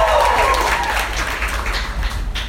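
Steady audience applause rises from a crowd at a Philadelphia comedy club. The dense, continuous clapping stays loud throughout and thins slightly toward the end.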